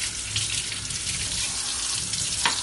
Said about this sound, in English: I'm going to wash it my hands again.